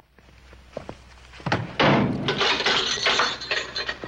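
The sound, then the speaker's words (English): A guard opening a metal door into a cramped office: a few light knocks, then two heavy clanks, followed by a sustained loud metallic rattling and scraping. “The guard opens the metal door and Coogan walks through into the cramped office where another guard sits at a”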